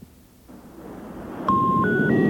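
A telephone line hisses after a number is dialed, then three steady tones step upward in pitch, one after another, as the call fails to connect.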